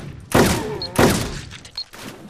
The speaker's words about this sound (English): Yeah, zombie in the sewers. I'm just gonna shoot him out of there if I can.